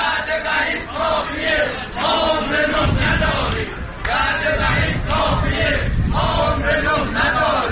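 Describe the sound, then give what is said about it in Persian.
A protest by telecom company retirees in Tabriz on a Monday: a loud crowd of many voices shouting and chanting together, a dense, continuous roar that barely lets up from start to finish. “صدای اعتراض بازنشستگان مخابرات تبریز در روز دوشنبه.”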